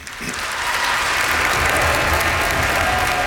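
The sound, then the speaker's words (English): Audience applause at Heinz Hall in Pittsburgh welcoming violinist Randall Gooseby, rising quickly into a dense, steady wash of clapping that holds evenly throughout. “Will you please join me in giving a warm Pittsburgh welcome to violinist Randall Gooseby.”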